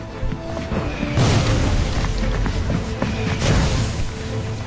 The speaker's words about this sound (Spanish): La artillería alemana explota por todas partes.